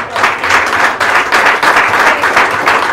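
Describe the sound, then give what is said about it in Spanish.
A church audience applauds during a sermon: loud, dense clapping that stays steady and sustained with only slight dips in intensity, heard alone without talk. “Vamos, denle un aplauso a Jesús.”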